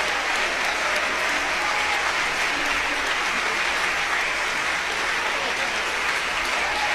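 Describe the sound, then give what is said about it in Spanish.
A standing audience applauds a symphony orchestra from Jalapa after a concert. Loud, dense clapping from many hands runs unbroken and even for the full seven seconds. “hay gente de pie aplaudiendo a la Sinfónica de Jalapa como un reconocimiento a su excelente desempeño musical”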